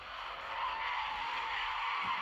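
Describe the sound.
Tire skid from a car in a racing video game as it boosts out of a curve, a faint, steady hissing screech held through the full two seconds.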